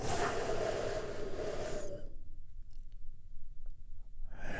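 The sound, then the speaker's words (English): A big, deep breath taken in and released, a broad, breathy rush lasting about two seconds that stops abruptly into near silence, with another breath beginning just as the sound ends. “Take another big, deep, healing breath with me right now. Here we go.”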